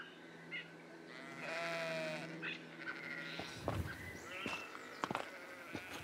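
Sheep bleating on a hiking trail: one long, wavering, clearly pitched bleat stands out, surrounded by shorter, fainter bleats, rustling and a few sharp knocks.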